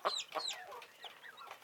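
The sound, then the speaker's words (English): Hens clucking on a farm, a series of short, bright, throaty clucks in irregular bursts, louder at the start and then softer, with no talk over them. “Hello there, hens.”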